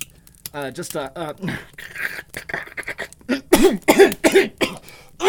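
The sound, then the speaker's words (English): Coughing and throat clearing, a string of harsh, voiced hacks and rasps that come in irregular bursts and grow louder and more frequent toward the end. “I think I had a frog in my throat there”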